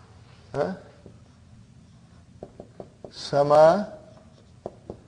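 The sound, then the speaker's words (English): Writing during an Arabic language lesson: a few light, short clicks and taps in a quiet space, between brief bursts of a voice speaking. “Okay, brother and sister, I write again.”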